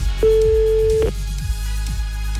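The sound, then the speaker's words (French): A telephone tone sounds as a listener is phoned live on air: a single steady mid-pitched beep lasting nearly a second, over a rhythmic music bed. “on t'appelle maintenant pour te doubler ton salaire”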